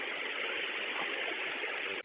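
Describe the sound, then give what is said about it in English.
A big paramedic ambulance truck idles with a steady, even engine drone that holds constant before cutting off abruptly at the end. “He's still deciding, but we have a big, is this a big ambulance that we have here? The paramedics truck.”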